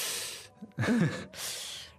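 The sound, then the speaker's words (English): A sharp intake of breath hissed through the teeth, several breathy, airy bursts with short gaps between them, fairly faint and with no speech. “And it might also be accompanied by perhaps a sharp intake of breath.”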